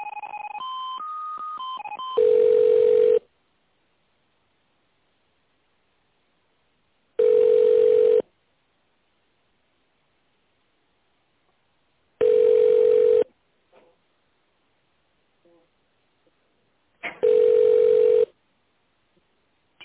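Four evenly spaced telephone tones, each about a second long and about five seconds apart, play while a call is transferred to another department. A short run of other line tones comes before them.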